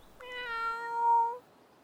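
A cat meows from the branch of an old oak tree: a single, drawn-out, tonal meow lasting a little over a second, holding a steady pitch and heard alone against quiet.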